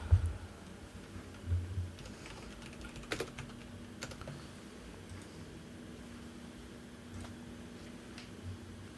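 Computer keyboard typing as a dice-roll command is entered into a chat: faint, scattered key clicks, a bit denser near the start, over a low steady hum, with no voices.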